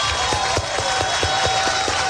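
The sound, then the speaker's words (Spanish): Congregation applause for the Lord at a small church service, many claps falling in a steady, even rhythm that holds throughout. “Denle el aplauso al Señor, bien grande.”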